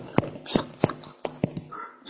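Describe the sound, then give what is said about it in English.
A person imitates a dog lapping water, producing several short, wet slurping bursts in an uneven rhythm, fairly loud, with no speech. “the ones that kneel down or squat down and cup it in their hands like this and start lapping it like a dog like this”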